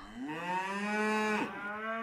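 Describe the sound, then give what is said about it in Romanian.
A herd of cattle being driven along gives a long, low moo that holds a steady pitch and is clear and alone, with no talk over it. “Klaus cel Mic, care își mâna din urmă cireada. Mubu! Cireada!”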